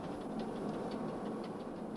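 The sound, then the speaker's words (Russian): Steady rumble of a daily passenger train hauled by a locomotive, a continuous, even, low drone with faint repeating ticks above it and no voices. “23-й – это ежедневный поезд «Юность».”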